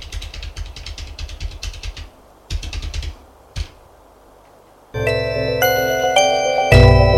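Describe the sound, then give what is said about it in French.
Bursts of keyboard typing as an address is entered on a computer: quick, irregular clicking taps that stop and start, then a sustained bright tonal sound takes over at the end. “Tu me donnes ton adresse ? Je vais la noter sur mon ordinateur.”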